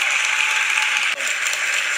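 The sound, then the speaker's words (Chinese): An audience rises to its feet and applauds as an Asian team stands in the hall, a thick, continuous wash of clapping with a brief dip partway through. “那随着这个亚洲的团队在会场站起来，会众也有很多人一面起立一面鼓掌。”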